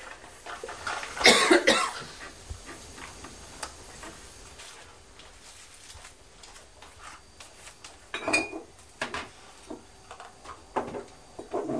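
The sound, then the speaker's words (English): Coughing from a person at home: a loud, harsh burst near the start and a shorter cough later, separated by quiet stretches of faint ticking and light clatter. “Excuse me, he's coughing.”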